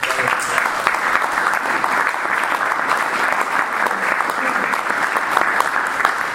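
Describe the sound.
An audience claps in steady, sustained applause to welcome a rabbi as the speaker, and the dense clatter stays even from start to finish.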